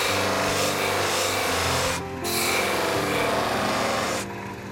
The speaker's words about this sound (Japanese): これは一日乾燥させ最後は研磨機で仕上げます研磨剤を使って半分だけ光らしています